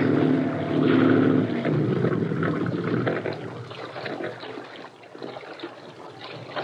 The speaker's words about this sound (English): See if we can tell if the pump's still working.